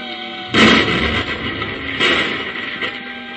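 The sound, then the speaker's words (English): Two heavy explosions from explosive pellets set off with a hand detonator inside a cavern: a loud, deep boom followed by a rumbling roar, then a second blast that dies into a sustained low rumble. “I'll use a few explosive pellets from this hand detonator.”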